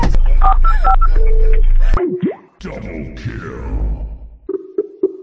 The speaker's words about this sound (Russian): Быстро вызывай ГИБДД! Куда вызывать?